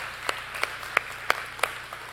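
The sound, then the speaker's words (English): Clapping from a church audience during a morning service: five sharp, evenly spaced claps in a steady rhythm, with faint background noise between them. “Can we give our online guests a big round of applause this morning?”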